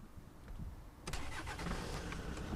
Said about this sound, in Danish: Det er en diesel, og det er ikke bare en diesel, det er en turbodiesel